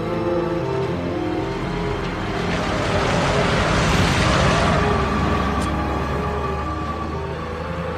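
A runaway RV driving out of control makes a loud continuous roar of engine and road noise that swells through the middle and then settles back to a steady rumble.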